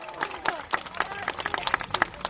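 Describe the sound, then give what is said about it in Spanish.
Audience applause for guests at the close of a segment, made up of many distinct, uneven hand claps at modest loudness rather than a dense roar. “Muy bueno, aplauso.”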